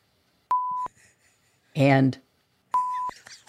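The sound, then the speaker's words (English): Two steady, mid-pitched censor bleeps mask swear words on television, each lasting about a third of a second, with a brief burst of speech between them and faint talk after. “the 7 words you can never say on television without getting beeped are”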